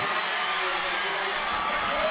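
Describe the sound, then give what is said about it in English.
Excited crowd in packed stands at a high school football game before kickoff, heard as a steady, dense wash of many voices with no pauses or standout cheers. “so you got Skirmerhorn will be kicking off for West as the crowd is getting excited for the kickoff, a packed house.”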